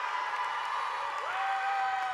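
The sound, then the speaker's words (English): An enthusiastic audience cheers and applauds as Bernie Sanders comes on stage, a steady wash of crowd noise. Sustained whoops and a whistle-like cry that briefly rises in pitch ride over it. “Sanders came on stage about an hour into the program to a wildly enthusiastic audience.”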